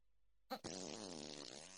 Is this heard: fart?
yes

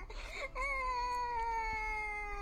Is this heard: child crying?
yes

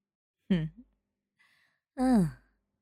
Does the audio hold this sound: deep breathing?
yes

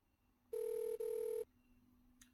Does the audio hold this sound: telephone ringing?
yes

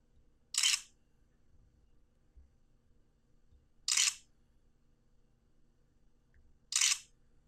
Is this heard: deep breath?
no

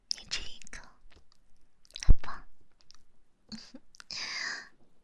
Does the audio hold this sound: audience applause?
no

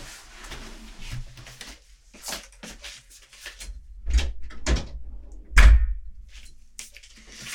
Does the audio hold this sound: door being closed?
yes

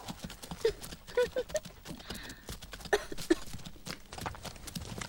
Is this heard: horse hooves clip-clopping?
yes

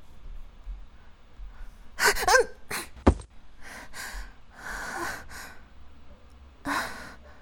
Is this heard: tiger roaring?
no

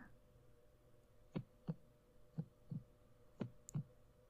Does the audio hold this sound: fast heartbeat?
yes

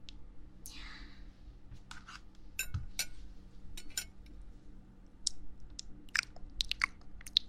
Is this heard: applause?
no

